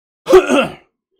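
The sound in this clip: A person clears their throat once with a short, rough, gravelly burst, heard alone in quiet.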